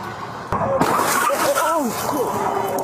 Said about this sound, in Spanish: La cámara corporal captó el instante en que un conductor distraído perdió el control y se estrelló contra un vehículo detenido, pasando a escasas pulgadas de la gente.